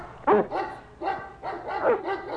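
Sled dogs bark at a sled dog race in a quick run of several high, excited barks and yips, some clustered close together, heard clearly on their own with no human voices.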